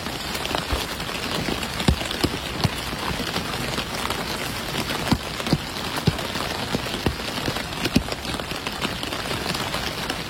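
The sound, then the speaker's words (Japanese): Rain falling on a vinyl umbrella: a dense, steady patter of drops on the plastic canopy, with scattered louder individual drops standing out above the continuous hiss. “では続きまして今度はビニール傘の雨音を聞いていただきます。”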